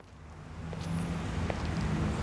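A car driving off, with a low engine rumble that swells slightly and holds steady for about two seconds.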